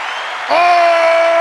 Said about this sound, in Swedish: En applåd för det. Ja, för att packa in.